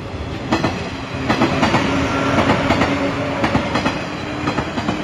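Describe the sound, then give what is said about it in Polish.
A train runs over track laid in separate jointed rail sections, its steady rumble broken by many repeating clickety-clack beats as the wheels pass the rail joints. “To, co usłyszeliśmy przed chwileczką, to był przejazd pociągu po torze montowanym z poszczególnych odcinków szyn.”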